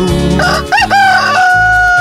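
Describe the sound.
A rooster crow sound effect plays during a live DJ set: a single warbling, wavering crow that settles into a long sustained note, heard over a steady booming bass beat.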